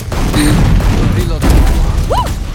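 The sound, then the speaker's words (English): Video game gunfire: a few heavy, booming shots and thuds land in quick succession while players talk over the action. “Dude, I'm shooting him.”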